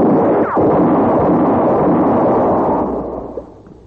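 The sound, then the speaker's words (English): A gunshot during an armed standoff: a loud, roaring, noisy blast that rumbles on for about three seconds before fading away, with no voices. “Had enough? Answer me or I'll shoot again.”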